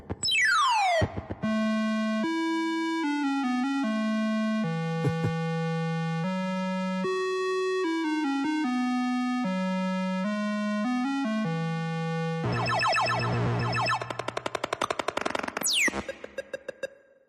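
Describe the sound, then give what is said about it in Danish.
Beeping chiptune from an old pixelated video game: a stepped melody of pure electronic tones that opens with a falling sweep and ends in a noisy, buzzing burst with a rising sweep. “Men jeg har fundet et lille klip på nettet, hvor man kan høre lydsiden fra det her spil.”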